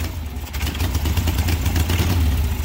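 An old family vehicle's engine keeps running after its starter cranks, started for the first time in a year. It idles with a steady, mid-pitched, slightly rough clattering rumble, heard alone without talk.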